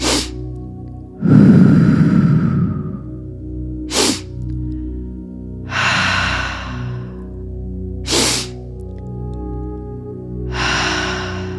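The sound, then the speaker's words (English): Breathwork of short, forceful inhales through the nose alternating with long, deep exhales out the mouth: three sharp sniffs, each followed by a slow, whooshing breath out, in an even repeating rhythm with no speech. “we're going to do a short and forceful inhale through the nose and a long, deep exhale out the mouth.”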